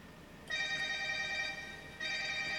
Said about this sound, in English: Is that your phone? It's your phone.